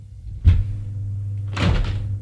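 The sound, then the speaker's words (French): A door opening, heard as two dull knocks or thuds about a second apart over a low steady hum, with no voices. “La porte s'est ouverte.”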